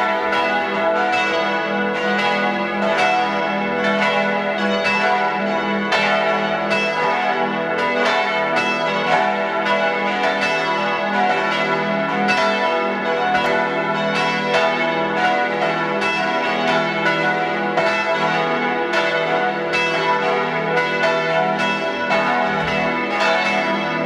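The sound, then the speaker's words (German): Noon bells of the pilgrimage church in Kaltenbrunn, Tyrol, ring continuously. Several bells overlap in a steady stream of many strokes, holding an even, full loudness throughout with no voices. “Es ist 12 Uhr. Sie hören die Glocken der Wallfahrtskirche zu unserer lieben Frau Maria Himmelfahrt in Kaltenbrunn in Tirol.”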